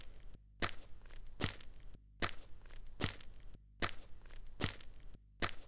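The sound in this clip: Footsteps climb a set of outdoor steps in Hendaye's town centre, between an old café and a mural: about seven evenly spaced, faint thudding footfalls with short quiet gaps, no voices.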